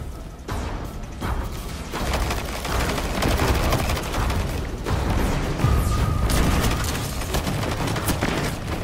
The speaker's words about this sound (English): See if I can get a sniper shot on him. Take out those guardians.